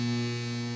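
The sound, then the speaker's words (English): Electrical mains hum, a steady low buzz with layered harmonic overtones, holds at constant loudness with no other sound for under a second. “That's the sound of electricity.”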